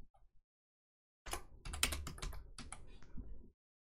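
Rapid typing on a computer keyboard, entering a search, as a dense, continuous clatter of keystrokes for about two seconds. It stops abruptly and is heard alone.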